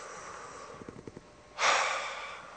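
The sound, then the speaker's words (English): A deep breath: a few faint short clicks, then a sudden, airy rush of exhaled breath that swells quickly and slowly fades over about a second. “Take a deep breath.”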